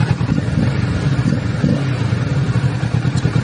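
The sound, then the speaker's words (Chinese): A twin-cylinder motorcycle engine runs during a pre-dawn test ride, giving a loud, steady throbbing rumble with a slightly uneven, lumpy pulse and no talking. “双缸的声音 OK， 我们选择在凌晨试车，因为这种摩托我不希望”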